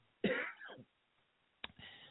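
Two rough coughs come from someone hoarse from shouting. The first is a longer, raspy burst, and a shorter one follows after a brief pause.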